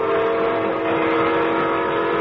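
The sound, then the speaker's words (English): A train moving through countryside gives a steady, even rumble with a faint tonal hum running through it, continuous from start to finish with no voices. “The train strokes along the countryside, moving forward in space and in time.”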